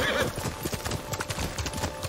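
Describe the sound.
Hooves of a galloping horse in a video game beat out a rapid, steady clip-clop, with many quick strikes running evenly through the whole stretch.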